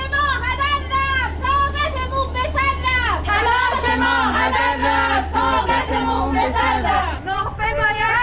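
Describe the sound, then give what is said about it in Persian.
Protesters in Tabriz chant together over teacher hiring exam rules that weigh marital status and number of children. The loud crowd voices rise and fall in a steady rhythm over a continuous low hum, staying dense from start to finish. “این صدای معترضان در تبریز بود.”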